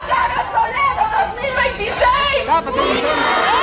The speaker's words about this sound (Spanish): Escuchemos parte de lo que se vivió en esta protesta, en esta irrupción del desfile cívico-militar en Morelos.